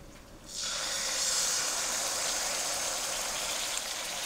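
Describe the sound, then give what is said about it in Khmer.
Loud sizzling hiss as thick, undiluted coconut cream is poured into a hot cooking pot. The sizzle bursts in suddenly after a quiet moment and holds steady and even to the end. “បន្តមកទៀតនេះខ្ញុំសូមដាក់ខ្ទិះដូង”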